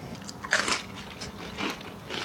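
Crisp crunching as someone bites into grilled bread toasted in a grill pan and topped with grated tomato, olive oil and salt; a few short, faint crunches with quiet chewing between them and no talking.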